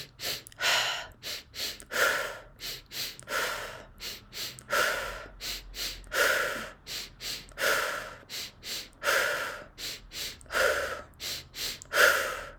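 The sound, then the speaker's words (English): Breathing exercise done as a repeating cycle: two quick sniffing inhales through the nose, then an exhale out through the mouth. The rhythmic breaths come steadily and loudly, without talk. “So one of my favorite breath patterns to do is 2 inhales through the nose and then out through the mouth.”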